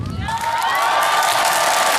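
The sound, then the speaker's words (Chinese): A concert audience cheers, whoops and shouts to welcome a singer onto the stage. The roar is loud and continuous, with high shrieks on top throughout. “接下来让我们掌声有请。”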